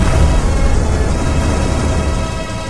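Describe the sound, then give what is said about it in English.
Rocket engine ignition and launch: a loud, continuous, heavy roar with deep rumbling low end, holding steady for the whole stretch and easing only slightly near the end. “You can fire when ready. Counting down. 10, 9, 8, 7, 6. Ignition sequence start. 3, 2, 1. Ignition.”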